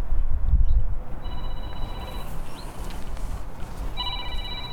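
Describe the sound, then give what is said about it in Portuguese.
A telephone rings in two bursts of high electronic tones, each about a second long, over a loud low rumbling noise, with no voices. “O telefone da formiga tocou”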